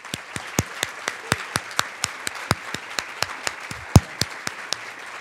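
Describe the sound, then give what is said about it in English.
Applause welcomes the two candidates at an Ohio Attorney General debate: a long, steady run of sharp, evenly spaced claps over a low wash of crowd noise, with one noticeably louder clap near the end. “Given that this debate is limited to 1 hour, we ask that you hold your applause except for two occasions. At the end, when we close the debate, and right now, as we welcome our two candidates, Steve Dettelbach and Dave Yost.”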